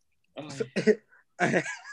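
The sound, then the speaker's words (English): Coughing and hawking up phlegm: three short, rough, throaty bursts in quick succession, the last one longer and raspier, fairly loud against silence. “I'll throw phlegm in there.”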